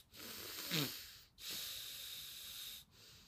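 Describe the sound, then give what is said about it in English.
A person with allergies and mucus breathing through the nose, two long, faint, airy hissing breaths separated by short gaps, the first with a brief wheezy whistle, no talk. “I'm gonna just breathe through my nose from now on.”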